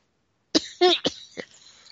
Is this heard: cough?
yes